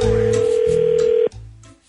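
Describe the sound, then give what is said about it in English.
A telephone gives off a steady electronic tone for just over a second, holding one even pitch before cutting off abruptly and leaving a low, fading hum. “I'd be careful answering that call.”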